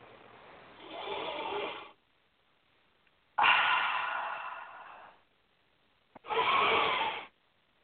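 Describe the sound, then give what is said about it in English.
Three deep breaths, each a long airy rush of breath separated by short silences, taken during a guided relaxation exercise. “Take a nice deep breath.”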